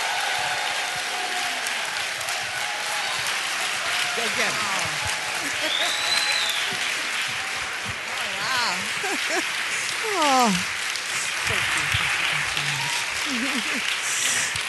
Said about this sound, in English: We don't just give them a little, oh, we're glad you're here, a little pitter-pat here. We give them the biggest ovation we possibly can. And so give Dr. Brenda Salter McNeil a Queens Boulevard welcome as she comes up.